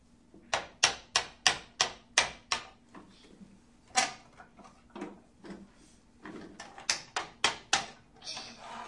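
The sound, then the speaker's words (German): Sharp knocking made with a toy tool from a children's hammer, pliers and screwdriver set. A quick, evenly spaced run of hard taps comes first, then a few scattered knocks, then another rapid burst near the end. “Ja, jetzt kannst du damit klopfen.”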